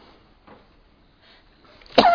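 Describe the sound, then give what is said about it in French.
A single loud, abrupt sneeze bursts out near the end, preceded by a couple of faint, muffled sounds. “J'éternue.”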